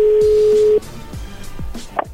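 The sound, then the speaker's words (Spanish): A telephone call rings through as a steady, even ring tone that holds for under a second and stops abruptly. A few low, soft thuds and a brief blip follow. “A ver, ya entró la llamada. Contéstale tú.”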